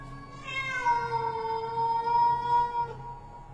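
A black cat yowls eerily in one long, wavering, drawn-out cry lasting a few seconds, its pitch swelling and then sinking, over a low steady background hum.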